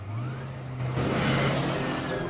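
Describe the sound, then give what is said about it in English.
A car drives off with a steady engine hum, and the engine noise swells and grows broader midway through. “DL and Micah climb back into their car. Hero and Ando wave as they head off.”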